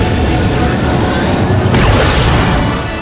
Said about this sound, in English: The shuttle circles the Statue of Liberty and then blasts away into space.